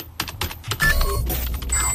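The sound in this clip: Typing on a computer keyboard: a short run of irregular clicks and taps, with a few brief electronic tones mixed in, no voices.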